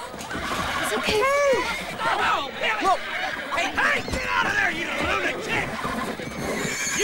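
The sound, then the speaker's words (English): A herd of mustangs in a corral neighs and whinnies repeatedly, with shrill calls that rise and fall and overlap one another over busy, continuous background noise. “A herd of Mustangs prance around inside. Flicker rears up on her hind legs.”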